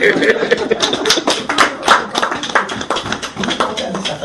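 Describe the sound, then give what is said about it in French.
Clapping from a church audience: many sharp, distinct hand claps in a loud, uneven patter that rises and falls over several seconds. “Applaudissons pour elle, alors.”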